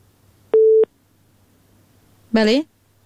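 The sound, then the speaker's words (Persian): A busy tone on a phone line after a dropped call sounds as a single steady, mid-pitched beep, followed after a pause by a brief voice-like sound. “بله تماس از اینا قطع شد.”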